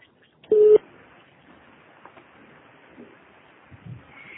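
A single voicemail recording tone: a steady, mid-pitched electronic beep lasting about a quarter second, followed by a quiet open line with faint hiss and soft rustling.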